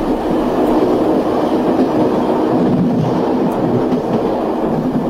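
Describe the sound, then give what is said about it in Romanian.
A passenger train bound for Predeal runs on its rails with a steady, continuous rumble and faint clatter of the cars, unbroken throughout with no voices. “Eram în personalul de predeal.”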